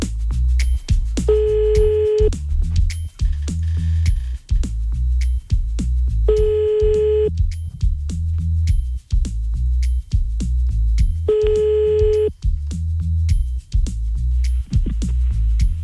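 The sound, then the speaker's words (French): Telephone ringback tone from a late-night radio prank call being placed: three evenly spaced, steady mid-pitched rings separated by long gaps, heard over a continuous low rhythmic background. “on y va, on appelle le premier de la night. C'est parti.”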